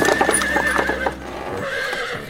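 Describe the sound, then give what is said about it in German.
Horses neighing and whinnying over steady clip-clopping hooves, loud and continuous throughout. “Versorge die Pferde gut.”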